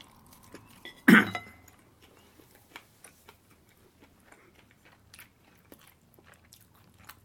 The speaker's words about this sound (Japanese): ちょっと唐揚げも一個食べさせていただきます。うまい。